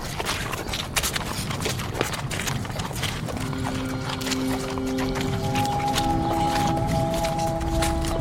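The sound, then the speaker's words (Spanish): Two horses clip-clop on a ride through the desert, their hooves striking in a dense, steady rhythm throughout. Partway through, sustained musical tones come in under the hoofbeats. “Weyland propuso que diésemos un paseo a caballo a través del desierto”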